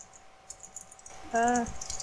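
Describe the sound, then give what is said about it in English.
Several soft, sparse clicks of a computer mouse clicking the install button during a virtual machine setup, followed by a brief voice speaking over a faint background hum. “Okay, do I click any of these boxes? Nope, just click install now.”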